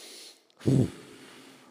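A person demonstrates a deep breath by blowing out hard in one short, forceful, low gust that stands out loudly against faint hiss.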